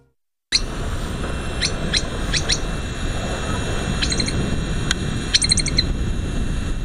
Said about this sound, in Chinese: 但有个方法有助于寻找到它们的踪迹， 这就是听鸟的叫声。